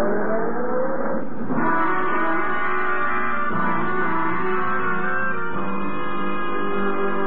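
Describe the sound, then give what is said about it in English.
A taxi's engine pulls away and accelerates, a loud, steady, harmonic engine roar that runs throughout with a few brief shifts in tone and no voices. “Taxi! Hey, taxi! ...624 West 15th and step on it.”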